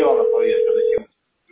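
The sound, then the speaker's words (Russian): A telephone ringback tone sounds on a call that nobody answers: a single steady, loud, low-pitched tone lasts about a second and then cuts off into silence. “И никто не берет трубку. Я звоню.”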